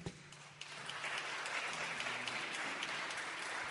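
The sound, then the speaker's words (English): Audience applause welcoming a musical guest: dense clapping from a crowd that swells after a brief start and then holds steady and full. “We got John Lewis here. Please give him a warm hand.”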